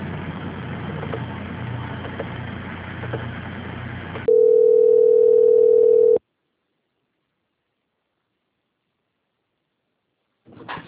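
A steady telephone tone plays during a call transfer to a bank's quality-control line. It follows a stretch of line hiss, holds one unbroken pitch for about two seconds, then cuts to silence before a faint sound near the end.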